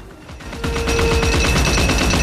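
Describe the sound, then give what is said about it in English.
Rapid fire from a Gatling gun shooting from a cockpit platform at a flying bicycle: a dense, steady stream of many shots swells in after a quieter start and holds loud to the end, with a sustained tone beneath. “Amazonia stands on the cockpit platform behind a Gatling gun. She fires on the bicycle, peppering the fabric on the wings with holes.”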